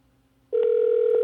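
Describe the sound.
Telephone ringback tone during a call: after a quiet start, a steady, loud, mid-pitched electronic tone begins and holds unbroken to the end.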